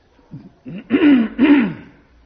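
Throat clearing: a few rough, guttural rasps, starting with short soft catches and ending in two louder, drawn-out harsh clears, heard alone.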